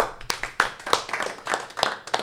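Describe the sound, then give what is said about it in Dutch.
Applause from an audience at a live event after a speaker finishes: many irregular, overlapping hand claps in short bursts, moderately loud and steady throughout, with no talking. “Jouw eerste applaus, dankjewel”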